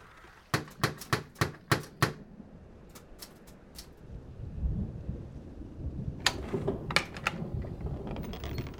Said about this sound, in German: sie konnte sich schließlich eine Schreibmaschine kaufen. Sie lebt jetzt in Coombe Tracy und übernimmt Schreibarbeiten.